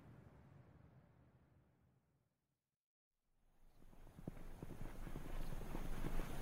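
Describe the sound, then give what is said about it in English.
Horse hooves clip-clop quietly as a rider sets out for the foothills, the steady beat fading to a brief silence, then returning and growing louder. “The next day, Hassan rode out to the foothills and searched until he found the tree.”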